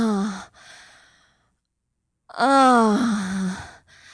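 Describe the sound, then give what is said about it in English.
A woman moans aloud, with a softer breathy sigh first and then, after a pause, a louder drawn-out voiced moan with a wavering pitch. “I moan aloud,”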